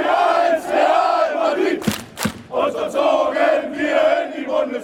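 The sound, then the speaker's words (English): Union Berlin football fans chant in unison at a Champions League away match in Madrid, a loud, sustained roar of massed voices broken by two sharp bangs midway. “Now, Union have climbed all the way from the German fourth tier to the Champions League, and this was the sound of their fans in Madrid 2 weeks ago.”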